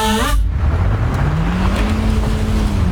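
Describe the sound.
An old, worn car engine labors up a hill, a loud, steady drone whose low pitch creeps slowly upward as it strains.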